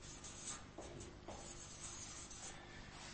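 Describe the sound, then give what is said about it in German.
Faint scratching of handwriting as something is written down by hand, soft rasping strokes with a few brief brighter scrapes, quiet and alone. “Ich schreibe das mal hier mit auf.”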